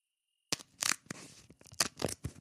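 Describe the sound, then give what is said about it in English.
Something being ripped apart gives sharp tearing bursts that break a short silence, then come in several uneven pulls with brief gaps between them. “This one I'm going to try to do the ASMR rip on there.”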